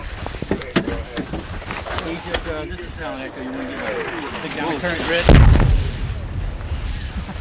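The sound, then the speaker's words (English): A single heavy mortar explosion in an Iraq war zone: one loud, deep boom with a low rumble near the end, after several seconds of people talking. “Let Egypt Tango know we're taking mortar fire again over.”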